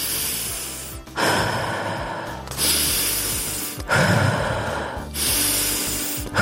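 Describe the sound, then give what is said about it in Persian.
Deep breaths drawn in and pushed out, loud and airy with a rushing, hissing quality. Several long breaths follow one another in a slow, even rhythm with brief pauses between them, and no talking. “سه تا نفس عمیق بکش،”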